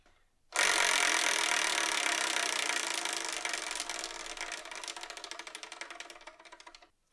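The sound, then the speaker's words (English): A selection wheel spins with a loud, dense whirring rush. The rush thins into rapid ratcheting ticks that slow gradually and fade to a stop. “let's spin and see what we're reviewing in the next episode, shall we?”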